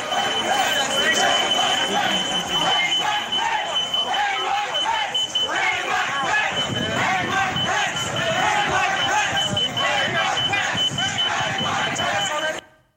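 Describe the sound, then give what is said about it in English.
A door security alarm at the Capitol holds a steady, high, shrill tone while a mob chants and yells loudly underneath, and the whole scene cuts off abruptly at the end. “You can hear the security alarm from the door in the background, and you can hear the mob calling for the death of the Vice President of the United States.”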